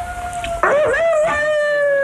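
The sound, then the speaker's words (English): A seven-week-old puppy howls in a long, high, sustained whine. Midway its pitch wavers, dipping and rising, then settles into a steady tone that holds loud to the end. “You'll have to excuse the dog, listeners, but he doesn't know we're on the radio.”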